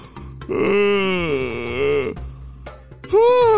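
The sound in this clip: A voice performs a long, drawn-out yawn, a voiced groan that swells and wavers in pitch for over a second. A short pause follows, then a second yawn-like sound begins at the end.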